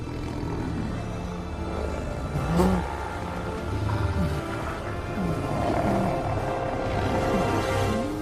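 Wolves growl in a low, continuous rumble with a few louder surges, snarling steadily without pause and with no talk.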